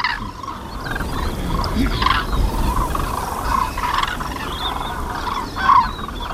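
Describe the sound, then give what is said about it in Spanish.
Cranes call from a flock of about four thousand birds gathered before flying north, with repeated rolling, trumpeting notes rising above steady, strong wind noise. One call near the end stands out louder. “40, 50 mil grullas, todas juntas volando hacia el norte. Joder. Aquí había 4.000 solo.”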